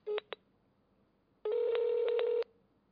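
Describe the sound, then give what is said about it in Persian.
Telephone dialing tones while calling a number again after the line was hung up: two short beeps, then a longer steady tone lasting about a second, with no talking. “دوباره تماس گرفتیم. قطع کرد. دوباره تماس میگیریم.”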